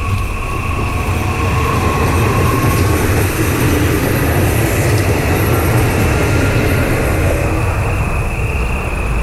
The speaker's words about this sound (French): je me suis dit tiens, c'est le train des gens qui vont travailler à Bordeaux